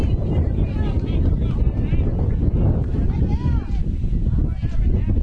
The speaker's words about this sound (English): Wind is still picking up here in the latter stages.